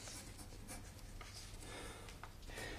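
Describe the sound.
Pen scratching on paper in a run of short, quick strokes, faint and steady throughout, with no voices.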